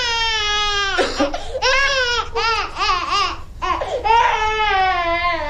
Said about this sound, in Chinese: 你把孩子吓哭了。